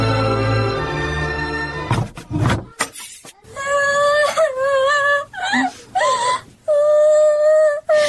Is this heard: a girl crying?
yes